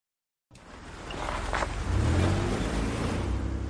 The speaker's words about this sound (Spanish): En Albuquerque, Walter Jr. conduce su nuevo coche. Para el coche delante de casa de Walt y se baja.